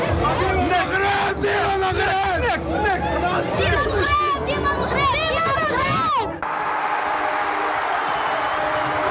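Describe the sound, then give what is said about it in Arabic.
Football fans cheer and shout at a World Cup match, Morocco against Haiti, with many voices loud and continuous. Near the end the sound cuts abruptly to a flatter, steady roar. “أصوات تعبر عن تشجيع صادق من القلب، فكلما هاجم أسود الأطلس في ثالث مباراة ضد هايتي تهتف الجماهير”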